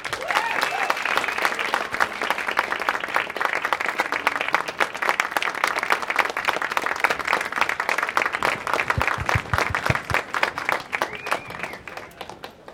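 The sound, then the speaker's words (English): An audience applauds to welcome film director Guy Ritchie onto the stage at a New York film event, dense, steady clapping that keeps an even level for over ten seconds before thinning out at the end. “Ladies and gentlemen, please join me in welcoming director Guy Ritchie.”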